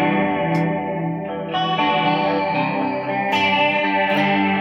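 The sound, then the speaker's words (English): An electric guitar plays through a Strymon Ola chorus pedal. A few sustained chords ring out with a shimmering, gently wobbling chorus, each new strum adding a bright attack over the lingering tone. “I've got the Strymon Olar. It's quite an expensive chorus pedal, but they can be had, like the other pedals, fairly low dough.”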